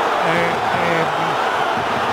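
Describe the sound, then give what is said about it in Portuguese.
Football crowd at Estádio do Dragão roaring in celebration of a Porto goal against Benfica, a dense, steady wash of noise with a commentator's voice running over it throughout. “Mas vai dar golo. Dá golo. Está validado o golo. É o público do Dragão a festejar.”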